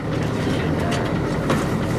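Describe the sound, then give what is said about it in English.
A research boat's engine idles near the shore of an island off the coast, giving a steady, even rumble and broad wash of noise with no distinct peaks or breaks. “A research boat idles near the shore of Anacapa Island off the coast of Santa Barbara.”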